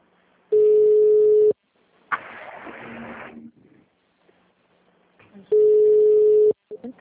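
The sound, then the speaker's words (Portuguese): Ringback tone of an outgoing call joining a group call: two steady mid-pitched tones, each about a second long and several seconds apart, with a short burst of voice or noise between them. “tem alguém ligando para alguém. Quem que tá ligando aí?”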